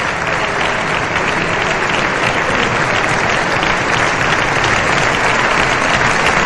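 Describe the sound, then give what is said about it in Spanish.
Long, dense applause from a crowd at an official state protocol ceremony in Spain honoring the Colombian president, a steady, loud wash of many hands clapping that holds evenly throughout with no break. “Estos aplausos suelen ser largos. Es muy común en estos protocolos.”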